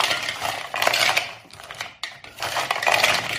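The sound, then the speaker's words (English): Frozen shrimp for air fryer fajitas are stirred with seasoning in a bowl, giving a continuous clattering, scraping rattle with louder bursts of hard knocks and a brief lull midway. “Excuse the noise, it's because the shrimp's frozen.”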